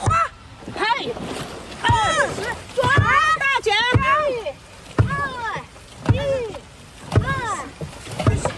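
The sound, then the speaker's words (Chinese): All-women dragon boat team of breast cancer survivors paddling on the water in Shanghai, with rhythmic strokes about once per second and voices chanting loudly in time with them. “在上海市，还有一支由乳腺癌康复者组成的全女性龙舟队，爱康生命之舟龙舟队。我们来听听他们在水上的飒爽风采。”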